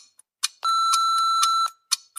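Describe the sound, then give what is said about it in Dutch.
A voicemail greeting's beep: one steady electronic tone lasting about a second, with brief clicks just before and after it. “Spreek een boodschap in na de piep.”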